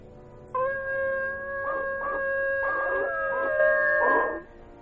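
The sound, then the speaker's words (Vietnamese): Howling from a pack of dogs gathered at the centre of a cave: a sustained, steady-pitched wail that holds for about four seconds, with several rougher, louder surges breaking through it. “Một đàn chó quỷ đang tập trung một chỗ, rồi chúng nó chu lên liên hồi. Cái tiếng chu khiến cho người ta cảm giác đến đinh tai, nhức óc.”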